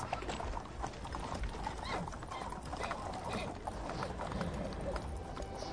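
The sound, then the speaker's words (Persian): Horse hooves clip-clop steadily as a rider sharply pulls the reins, a dense, even patter of hoofbeats continuing throughout. “عبدالله به تندی افسار اسب را کشید و به سمت انس به راه.”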